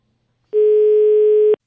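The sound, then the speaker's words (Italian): A telephone line tone sounds while a call is placed: one steady, loud, mid-pitched electronic tone lasting about a second and then stopping abruptly. No talk is heard. “Aspetta che dobbiamo chiamare Febal, sì. Mi sembra che possiamo, il numero si è liberato.”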